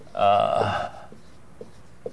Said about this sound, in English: so that means I am under no particularly impressive pressure to write on the board. But since you asked,